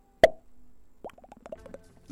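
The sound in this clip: A wine bottle of merlot being uncorked: one sharp, loud pop, followed by a string of softer gurgling glugs.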